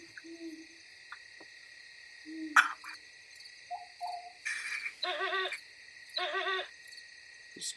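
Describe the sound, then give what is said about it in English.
Owls hooting at night, with two wavering, tremulous hoots in the latter half over a steady, high chirring of insects, preceded by a few brief, softer calls. “owls hooting.”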